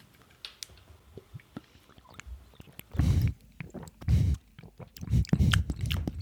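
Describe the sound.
Wet chewing of mango, with many soft squelching bites and smacks that grow louder in the later bursts, and no talking.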